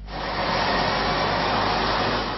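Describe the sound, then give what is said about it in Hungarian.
The new number 46 city bus in Budapest gives a steady, loud engine roar and rumble that swells in at the start and then holds evenly. “Az új 46-os busz már menetrend szerint közlekedik.”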